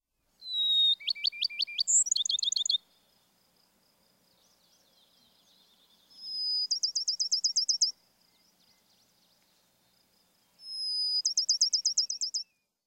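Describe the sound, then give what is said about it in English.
A Bachman's sparrow sings three high, bright song phrases separated by quiet pauses. Each phrase opens with a clear sustained whistle and breaks into a fast, even trill, and the first phrase has a few added sliding notes. “Backman Sparrow.”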